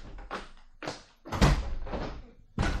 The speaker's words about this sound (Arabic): مين مين اللي بيخبط؟